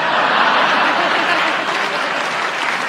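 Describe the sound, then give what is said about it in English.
Loud, dense applause from a studio audience after a joke in a comedy panel game, holding steady without a break for the whole few seconds. “I think you're utterly mean to applaud that. Honest. But I show you how fair and generous I am, because you did applaud him, and he got a good joke.”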